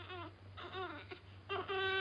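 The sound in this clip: A hungry baby boy with colic cries in a few wavering, high-pitched wails separated by short gaps, growing louder and more sustained toward the end.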